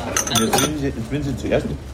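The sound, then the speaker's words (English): A fork scrapes and clinks against a plate while chasing a boiled white Weißwurst sausage, giving a few sharp metallic taps and scrapes of cutlery on crockery at moderate loudness. “As I try to sample a Gassner Weißwurst, the boiled white sausage slides around the plate, evading my fork.”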